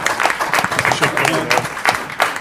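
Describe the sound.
Applause for a colleague leaving for a new job, a short burst of lively clapping from a gathered group, dense and uneven with sharp hand strikes throughout.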